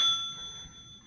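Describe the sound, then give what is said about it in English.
A single bell rings once with a bright, clear tone, then fades slowly into quiet, heard alone. “The ringing of the bell.”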